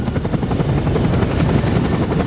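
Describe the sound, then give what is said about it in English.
A Chinook supply helicopter lifts off from sand, its rotors producing a loud, steady, continuous thrumming roar with a dense, rapid beat that holds at an even level throughout. “A Chinook supply helicopter lifts off, kicking up a cloud of sand.”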